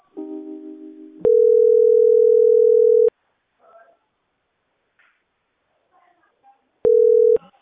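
Telephone dial tone while a call connects: a steady, single-pitched electronic hum holds for about two seconds, cuts off, and returns briefly near the end, with faint scattered sounds in the quiet gap.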